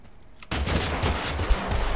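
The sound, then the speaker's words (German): Gunfire erupts in the battle-royale video game Totally Accurate Battlegrounds. A quiet lull gives way to a sudden, dense burst of rapid shots that continues as loud, crackling fusillade. “Verdammt, da schießt einer.”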